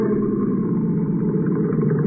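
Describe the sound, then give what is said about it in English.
A boat motor runs steadily as a drifting vessel is approached. It gives a continuous low, rumbling drone at an even loudness throughout, and no shutdown is evident. “Cut your motor and hook us fast.”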